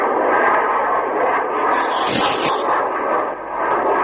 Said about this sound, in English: There it is. There's the Israeli jet. He's going in now, right now on the camp, and there he goes. Here comes another. Out of the sun. Starting straight down now